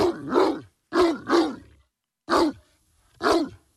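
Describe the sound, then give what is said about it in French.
A dog gives five deep, harsh, throaty barks in an irregular rhythm, including a quick pair near the middle. Clear silences separate the barks. “On va écouter un premier aboiement puis un deuxième.”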